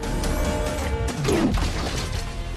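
A karate strike hits a target, heard as a few sharp impacts over a dense, clattering background.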